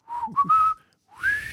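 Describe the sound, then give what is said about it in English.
A person whistles a short, breezy tune: a bright whistled phrase with a few quick notes, a brief pause, then a single whistle that slides upward in pitch. It is clear and fairly loud, with no talking. “I'm not good at whistling.”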